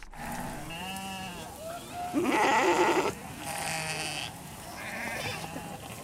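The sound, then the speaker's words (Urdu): Sheep and goats bleat among livestock traded in Somaliland and herded toward export for the Hajj. Several wavering bleats overlap, with one louder, denser burst in the middle, over a low background rumble. “ساحل سے پرے دور افتادہ علاقے سے لے کر سومالی land کے دارالحکومت ہرگیسا تک لاکھوں بھیڑیں اور بکریاں قرن افریقہ کی اس چھوٹی سی جمہوریہ میں سفر میں ہیں”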